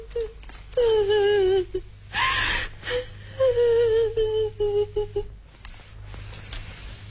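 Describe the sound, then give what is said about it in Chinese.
A person crying sadly in long, wavering wails that mostly sink in pitch, broken by sobbing breaths, loud over a steady low hum. “伤心地哭了起来”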